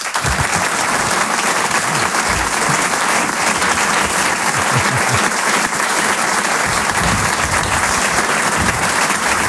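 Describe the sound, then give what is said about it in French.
Sustained, dense ovation from a comedy club audience, with many hands clapping at a steady, loud level from start to finish and no clear talk on top. “Je vous demande une ovation s'il vous plaît pour Selig.”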